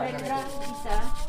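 Hand sanding of bamboo drinking straws: a steady, coarse rubbing scrape with small rhythmic surges, continuing without pause through the short clip.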